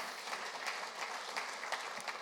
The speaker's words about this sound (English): Let's give them a quick round of applause.